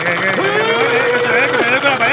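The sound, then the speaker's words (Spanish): A child's motorbike engine drones steadily as its throttle is pressed, with the pitch jumping up in a couple of brief revs. “Si es que el niño le da sin querer al acelerador, ese que llevas ahí.”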